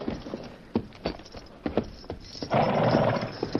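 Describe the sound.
A horse sets off, its hooves clip-clopping in an uneven walking rhythm of sharp, hollow strikes. A louder, sustained burst of noise swells near the end, with no talking over it.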